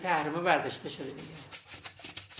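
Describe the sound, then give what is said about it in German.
Brisk scrubbing of a washbasin during office cleaning, a quick run of rhythmic rasping strokes, fairly faint, following a brief tonal squeak at the start. “schrubbt noch schnell ein Waschbecken, bevor es ins nächste Büro geht.”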